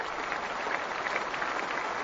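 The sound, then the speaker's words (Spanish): Applause from the crowd at the men's singles final at Roland Garros, greeting the winner; a dense, even wash of clapping that holds steady at moderate volume throughout. “Gran ovación para Novak Djokovic.”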